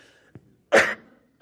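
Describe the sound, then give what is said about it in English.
A single harsh cough after choking, preceded by a faint short throat sound, then quiet again. “pardon me, excuse me. Woo, I got choked. Excuse me.”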